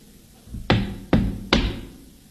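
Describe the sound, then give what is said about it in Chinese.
Three sharp, loud knocks on a closed front gate, evenly spaced about half a second apart, each a hard thud with a short fading tail over a quiet background. “待我上前叩我门”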